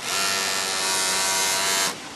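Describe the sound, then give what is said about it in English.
Sewing machine stitching pink fabric for a V-neck women's t-shirt: a steady, loud motorized buzz that runs for about two seconds, then drops off sharply. “Push this pink fabric under the needle of a sewing machine in order to put together the V-neck women's”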